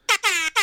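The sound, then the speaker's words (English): Three blaring blasts of a Jamaican air horn sound effect played from a phone app: a short honk, a longer sustained blast, then a third cut off at the end. Bright, buzzy and loud, with no voices. “The Jamaican air horn will never get old. I got an app, and like, I love it, and it's got some cool sound effects on it,”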